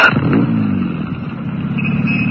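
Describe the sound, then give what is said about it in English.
A car engine starts with a sharp burst, briefly revs, then settles into a steady, loud, low running rumble that continues to the end. “Start the motor”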